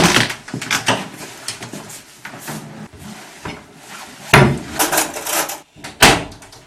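Rummaging in a kitchen for a spoon or knife: irregular knocks, rattles and clatter of drawers and cupboards, with a few sharper, louder bangs near the end and no talking.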